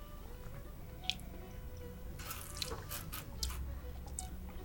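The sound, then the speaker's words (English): Sweet mead slurped to aerate it: a faint wet, hissing slurp lasting about a second, with a few soft clicks and drips around it over a quiet background. “You're aerating your mead.”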